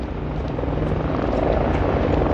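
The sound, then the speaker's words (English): Police helicopters fly overhead in salute as mourners leave a church after a funeral. Their rotors make a loud, steady, rumbling roar throughout, with no voices. “As the mourners filed down the church steps, a series of police helicopters flew overhead in salute.”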